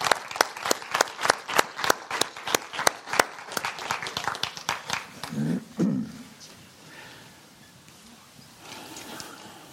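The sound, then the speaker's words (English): An audience applauding a group of children: dense, brisk clapping that gradually thins out and fades away over several seconds. “Okay, can we give these kids a hand?”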